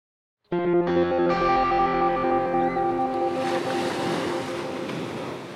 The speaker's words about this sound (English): That's the sound of the Pacific Ocean.